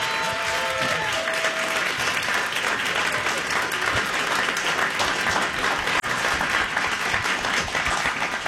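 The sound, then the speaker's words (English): Audience applause welcoming a guest at a live talk event. Continuous, even clapping fills all eight and a half seconds at a moderate level, with no voices rising above it. “We're making a little bit of noise over here because we are joined by Andre DeShields”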